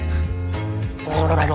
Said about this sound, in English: Why don't you practice gargling? Right now? Can you gargle? Let's see.